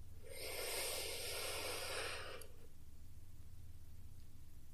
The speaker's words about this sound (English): So let's go ahead and take another deep breath in.